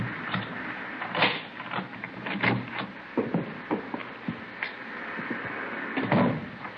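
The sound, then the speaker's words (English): A key works the lock of a front door before the door is opened, making many faint metallic clicks, taps and rattles in an uneven run. “Here's the front door key. See if you can work it. Well, I know how it works. You go ahead and open it.”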